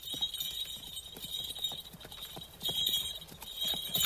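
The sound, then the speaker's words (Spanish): Faint hoof clip-clops of a horse pulling a carriage, a calesa with its driver on the box, moving off at an even trot, with many light, regular hoof beats over low background noise. “El coche de caballo se aleja.”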